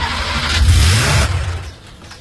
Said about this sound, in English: Turn on the engine and let's see what happens.